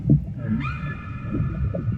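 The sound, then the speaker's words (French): A female whale's call: a single tonal, harmonic moan that rises sharply, then holds a steady pitch to the end, over a low rumbling background. “La baleine qui m'a appelé, c'est une femelle.”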